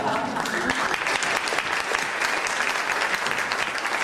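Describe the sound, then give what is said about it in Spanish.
Sustained crowd applause offered as a tribute to a former football club social media manager: a dense, continuous patter of many hands at a fairly loud, steady level for about four seconds. “Así que desde aquí, pues le damos un gran aplauso”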